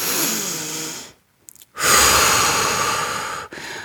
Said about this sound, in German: Leg deine Hand auf deinen Bauch. Kannst du auch mit deinem Kind machen und atme ganz tief mit der Nase ein.